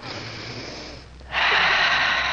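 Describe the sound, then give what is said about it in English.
A deep breath of fresh western air is drawn in, a loud, airy hiss that dips briefly, then swells into a strong, sustained inhale. “Just let me take a deep breath of this air.”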